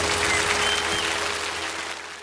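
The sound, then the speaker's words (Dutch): Applause from an audience: a dense, steady clatter of clapping that holds level and then eases off slightly toward the end. “applaus voor Nena en Laura”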